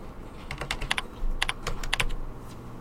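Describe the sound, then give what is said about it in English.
Fingers type a username into a login text box on a computer keyboard, producing many crisp, irregular keystroke clicks in quick bursts with short pauses between them. “So for the first text box, let us type our username.”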